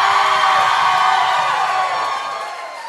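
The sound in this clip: Live audience at a finale party in the Colony House in Newport, Rhode Island, cheering and whooping in a loud, dense roar that slowly fades toward the end.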